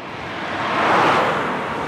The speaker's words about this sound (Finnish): Nyt autot suhahtelevat kapealla mutkaisella tiellä ohitse liian läheltä.